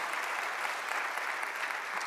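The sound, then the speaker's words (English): Subdued, polite applause from an audience, a golf clap of many hands patting softly in an even, continuous patter with no voices. “Some of you are kind of giving a golf clap because you're not real sure.”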